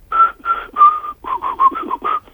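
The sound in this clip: Whistled melody performed during a song recording session in a studio, a clear tune of many short, steady notes in an even rhythm with brief gaps, alone without voices.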